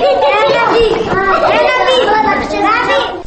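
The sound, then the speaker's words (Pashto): Children's voices fill a prison in Badam Bagh: loud, continuous chatter and calls from many overlapping young voices, rising and falling without a break. “تاسو د هغو ماشومانو غږ اورئ چې د بادام باغ په خزینه زندان کې ژوند کوي.”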